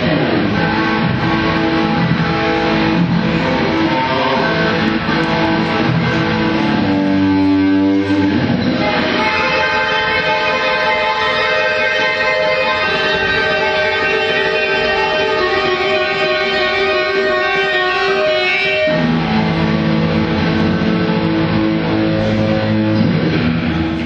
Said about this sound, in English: That's another guitar solo, so that's another worth another $2 of my $8 admission fee.